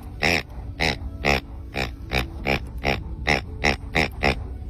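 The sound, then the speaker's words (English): A pig-shaped dog toy's squeaker gives eleven short, low, chuffy oinks in a quick, fairly even rhythm, each a buzzy honk rather than a high-pitched squeak. “This new toy, it's this pig, and it does not sound high pitched and squeaky. It sounds like this.”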